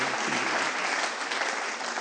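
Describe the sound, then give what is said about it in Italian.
Applause at a church worship service: a dense, steady clapping from an audience that holds at an even level throughout, with no clear voices above it. “Facciamo un applauso al Signore.”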